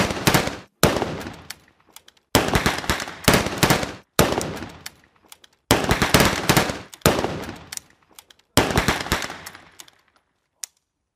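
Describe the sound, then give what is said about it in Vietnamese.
Firing-squad gunfire at an execution in heavy rain: repeated loud, crackling bursts of rapid shots separated by short silences, ending with a single faint report. “Những tiếng súng chát chúa vang lên như sấm xé nát bầu trời.”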